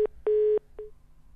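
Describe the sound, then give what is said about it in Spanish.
Telephone tones from an old phone as a call cuts off: a short beep, then a longer steady tone, then a fainter short beep, all at the same mid pitch. “se le cortó el teléfono. Era previsible, realmente es un teléfono arcaico, diría yo.”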